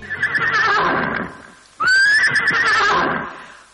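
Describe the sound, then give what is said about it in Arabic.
A horse neighing loudly in two long whinnies: the first is shaky and fades out, then after a short pause the second bursts in abruptly at a high pitch and trembles on before dying away. “حصان عم بركات”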